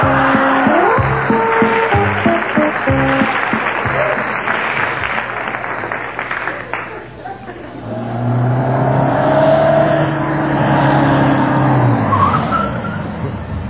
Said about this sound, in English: why'd you pull over? The car's out of gas.